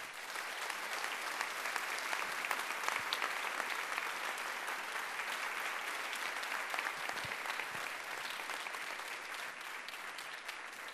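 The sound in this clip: An audience welcomes a speaker with dense, even clapping that holds steady for about eleven seconds without rising or fading.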